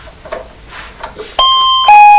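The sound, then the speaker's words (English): A doorbell rings with two loud chime tones, one after the other, following a moment of faint, quiet sounds. “the doorbell. That's the doorbell.”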